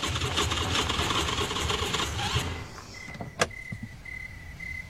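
A car engine that has run out of gas runs with a dense, rough rumble for about two and a half seconds, then cuts out. A single clunk follows amid near-quiet.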